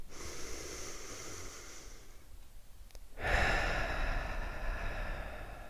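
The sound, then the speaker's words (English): A person takes one deep breath in and then lets it out, with a soft airy inhale, a brief pause and a fuller, louder exhale that carries on to the end. “Take a deep breath in and a deep breath out.”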